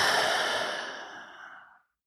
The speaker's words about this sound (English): Deep breath time. You ready? Let's inhale and exhale.